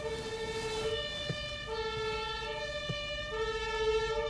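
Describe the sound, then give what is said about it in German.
Siren of an emergency doctor's response vehicle passing by: a two-tone wail alternating steadily between a higher and a lower pitch, repeating at a moderate, fairly faint level over low road rumble. “Jetzt kommt hier die Feuerwehr, aber nicht wegen uns, hoffe ich, nicht wegen meiner Äußerung. Nein, sie haben überhaupt keine Schuld. Das ist der Notarzt, den wir durchlassen müssen.”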